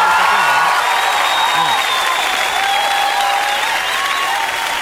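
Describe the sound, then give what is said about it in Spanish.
Applause from a crowd, given in recognition of local health improvements, a dense, loud clatter of clapping that holds steady for nearly five seconds. “así que debemos de reconocer y darle un gran aplauso a”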